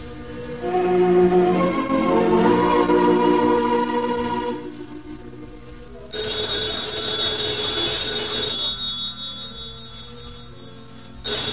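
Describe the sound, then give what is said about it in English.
A telephone rings with a bright, high-pitched electric bell in one sustained burst lasting several seconds, after a stretch of lower, tonal sound. “I'm sure there was a phone ringing in here”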